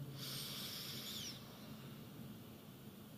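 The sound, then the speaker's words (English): Slow breathing in during a meditation: a single soft, hissy inhalation lasting about a second, then trailing off into near quiet with no talk over it. “One more at your own pace. Breathing in”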